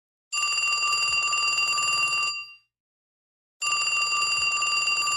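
Telephone ringback tone on an outgoing call: two long, bright electronic rings, each about two seconds long, separated by a clear silent gap, loud and alone.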